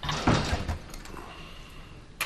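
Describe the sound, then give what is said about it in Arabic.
A door is closed with a soft, dull thud, followed by faint handling noise and a brief knock at the very end. “تفضل وانتظر في الخارج وأغلق الباب.”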